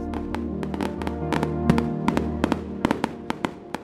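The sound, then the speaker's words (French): Fireworks, firecrackers and rockets going off in many sharp, loud bangs and crackling bursts, dense at first and thinning into scattered single reports, over a low steady hum. “entendit sortir d'épouvantables coups de pétard et d'où l'on vit s'élancer en l'air des fusées de toutes sortes de figures.”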